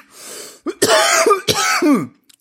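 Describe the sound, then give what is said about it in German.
A person coughs and clears their throat after choking on their own saliva: a few harsh, voiced bursts in close succession, loud and without talk. “an der eigenen Spucke, an der eigenen Spucke verschluckt, herrlich.”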